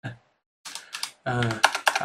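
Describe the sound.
Rapid clicking on a computer keyboard comes in a few short bursts, with a voice talking over parts of it.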